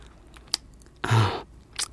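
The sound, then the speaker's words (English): A vampire bite sound effect in a spicy ASMR drama: a brief click, then a dense, wet, crunching bite lasting about half a second, followed by a smaller chewing burst. “Will you stop biting me? Damn it! Not until I've drank every last drop of your blood.”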